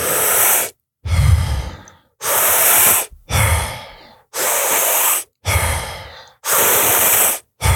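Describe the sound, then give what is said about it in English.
Rapid deep breaths in and out, part of a breathwork exercise repeated 30 times: loud, hissing breaths in a steady rhythm, alternating airy inhales and exhales with short gaps over several cycles, no talk. “So breathe in and let it go. Breathe in and let it go 30 times.”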